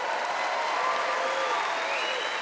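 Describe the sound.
Audience applause and cheering at a stand-up comedy show in America: dense, steady clapping holds for the whole stretch, with a few higher cheering voices drifting above the crowd noise.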